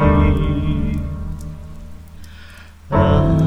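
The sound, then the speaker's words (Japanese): Rain falls steadily in a dense, even hiss that thins slightly for a moment before surging back to full strength. “雨が降り始め”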